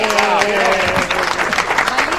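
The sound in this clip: Applause welcoming a guest into a studio: a busy layer of clapping runs throughout, partly under people talking.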